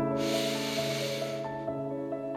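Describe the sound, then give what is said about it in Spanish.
A deep breath taken during a guided breathing exercise for anxiety, heard as a long, loud breathy rush lasting about a second over a sustained musical drone that continues alone afterward. “Respira profundo, profundo, profundo.”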